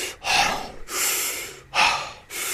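Heavy, labored breathing of someone climbing a mountain with trekking poles as the air thins: a few loud, rasping breaths in a steady rhythm, with no talking.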